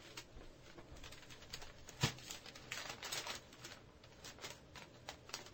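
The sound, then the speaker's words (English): Paper rustling and crinkling as sheets are folded near an open microphone, a steady papery shuffle with one sharper crackle partway through, heard alone without talk. “Who's got the mic open? They're folding papers.”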